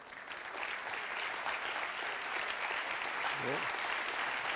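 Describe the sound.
Audience applause welcoming a guest: steady, dense clapping that continues evenly throughout at a moderate level, with no break.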